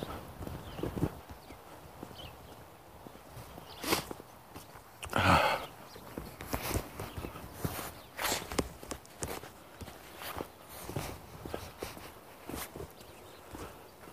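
Footsteps of a person walking outdoors: many sharp, hard-surfaced steps at an uneven pace, fairly faint, with one louder scuffing burst partway through.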